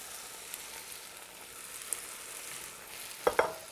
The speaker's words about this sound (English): Then lastly here, we're gonna add the potatoes,